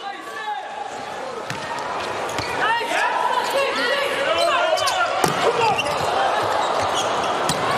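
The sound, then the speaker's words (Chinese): A volleyball is struck for a serve during a USA versus Japan match. A few sharp ball hits cut through steady crowd noise while a commentator talks. “美国队复工，加内里克的发球”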